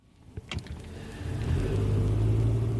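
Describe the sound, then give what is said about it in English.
A car drives along a road through the green Manawatu countryside. Its low engine and road rumble is steady and grows louder and fuller partway through, with a couple of faint clicks early on and no voices. “I'm driving through the lush and green looking Manawatu. I'm on my way to Massey University”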